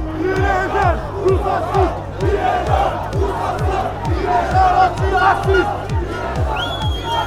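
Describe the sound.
Protesters clash and fight in a dense crowd: a loud, continuous mass of shouting and yelling voices rises and falls, with regular low thuds beating steadily underneath.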